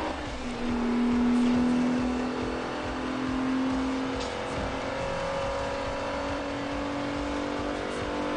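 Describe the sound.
Engine noise from an Italian car, its front end said to resemble a BMW's, as it drives sideways into grass. A steady, fairly loud motor drone with shifting tonal whines runs throughout, with no talking.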